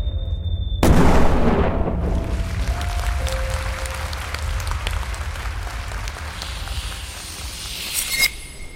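A battle sound effect of artillery fire and explosions: one sudden loud boom opens into sustained rumbling and crackling, and another sharp burst comes near the end.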